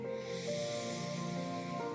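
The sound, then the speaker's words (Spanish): Slow breath drawn in through the nose during a paced breathing exercise: a soft, steady airy hiss that lasts the full two seconds without a break. “Inhalo en 4.”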